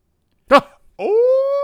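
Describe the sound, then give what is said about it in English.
A dog gives one short, sharp yip, then after a brief pause a steady, high, tonal whimper that rises slightly and holds to the end. “Now that dog trying to help you out. Attaboy. He a good dog.”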